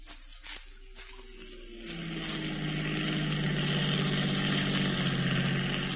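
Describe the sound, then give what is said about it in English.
Automobile engine idling, a steady low droning rumble with a humming tone that swells louder and deeper about two seconds in, then holds evenly with no voices. “Stop the automobile in front of the Hull Bank”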